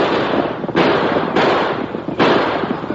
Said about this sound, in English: Better shoot. Let them have it.